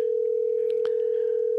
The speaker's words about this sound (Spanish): le estamos llamando al candidato Alfredo Raimundo.